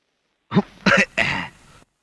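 Coughing: three short, rough bursts in quick succession, throaty and fairly loud, with no talk around them.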